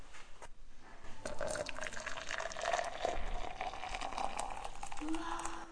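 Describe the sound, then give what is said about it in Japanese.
Hot water above 90 degrees poured into a cup holding a small 1.5 cm tablet, a steady, continuous liquid rush with faint gurgling throughout. “ここにですね、90度以上のお湯を加えます。”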